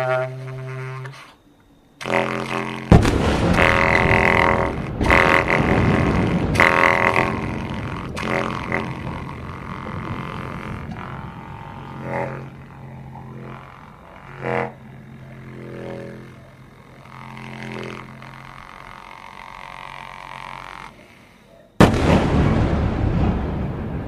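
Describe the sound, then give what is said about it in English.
Heavy booming explosions from bombs dropped by warplanes during the 2006 war in Beirut, with trumpet tones played on a balcony. Many loud blasts and crackling bursts break through, ending in a sharp sudden burst after a brief lull. “We hear his trumpet and bombs dropped by Israeli warplanes.”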